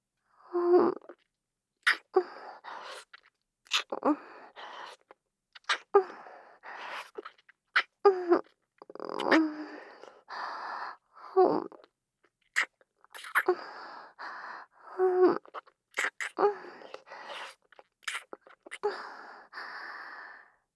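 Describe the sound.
Wet kissing and lip-sucking, with many short smacks and slurps in irregular clusters and soft breaths and sighs between them, quiet with gaps of silence.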